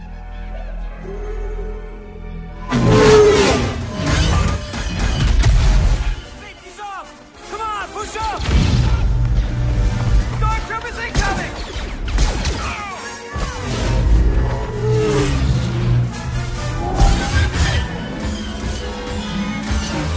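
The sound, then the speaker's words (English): Star Wars Battlefront video game trailer audio: loud, dense music layered with crashes, whooshes and impact effects, with voices talking at times throughout. “This is the Battlefront trailer, and you've really got to see it to believe it.”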